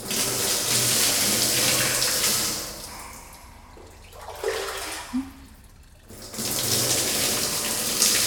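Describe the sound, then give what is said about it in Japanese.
Hot running water pours to rinse in a bathroom filled with herbs, a loud, steady splashing rush that thins and quiets in the middle as the flow is shifted, then surges back to full strength. “さて、お湯でゆっくり流します。まずは右側から。”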